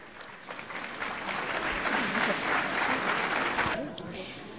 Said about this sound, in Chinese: 民众都给予了热烈的掌声